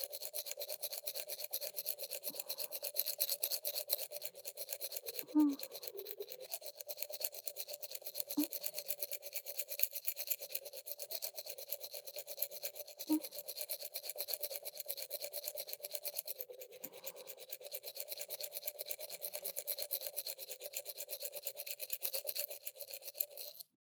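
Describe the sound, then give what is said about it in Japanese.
Someone's teeth are brushed with a toothbrush in a steady, continuous scrubbing with a soft, bristly rasp and a few brief knocks. No one speaks. “こうやって、あなたの歯を私が磨くようになったのって、いつからでしたっけ？”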